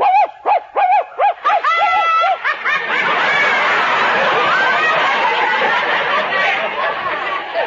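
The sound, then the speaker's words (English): Dog barking in a quick run of many high, yapping barks that soon give way to loud, dense laughter and chatter. “Now you hear the dog.”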